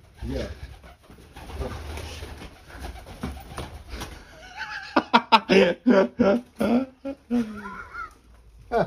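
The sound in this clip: Pigeons coo in a loft in soft, throaty repeated calls that grow denser and louder toward the end, while people talk and laugh alongside them.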